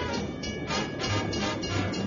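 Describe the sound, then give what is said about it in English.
Moving train aboard the Orient Express, a continuous dense rumbling roar with faint rhythmic pulses running through it and no voices. “So, we're on a moving train.”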